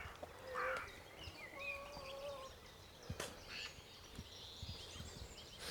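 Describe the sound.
Chickens clucking in a flock of about twelve birds, a few short tonal calls standing out over a steady hiss of background noise, with no talking.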